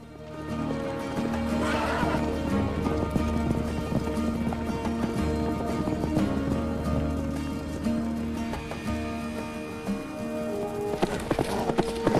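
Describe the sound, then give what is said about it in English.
Herd of mustang horses running, with continuous galloping hoofbeats and whinnies, dense and fairly loud throughout. “Rob pulls the Mustang away from the edge and the herd follows.”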